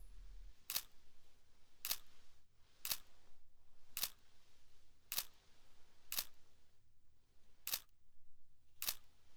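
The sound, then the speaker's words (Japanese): Eight crisp camera shutter clicks fire at slightly uneven intervals, each a sharp, bright snap standing out clearly against a faint, hushed background. “ちょっと写真撮りすぎ。”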